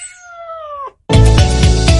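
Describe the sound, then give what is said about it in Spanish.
A single drawn-out cat meow, steady and then dropping in pitch at its end, is followed by a short silence and then a loud, dense burst of other sound. “puedes llevar a casa a un mejor amigo adoptando a uno de nuestros gatitos.”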